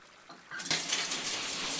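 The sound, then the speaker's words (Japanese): Hot water is poured over a person's body in a bath, running from the shoulders toward the belly. A faint hiss turns into a steady, bright splashing gush about half a second in and continues evenly to the end. “じゃあ、肩のあたりからお腹に向かってお湯をかけていくわよ。”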